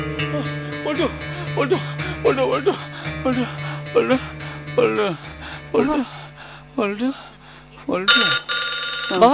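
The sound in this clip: A telephone rings with a steady electronic tone and a brighter, louder ring near the end, while people talk over it throughout.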